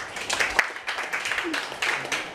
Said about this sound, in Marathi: या मित्रासाठी टाळ्या वाजवा एकदा.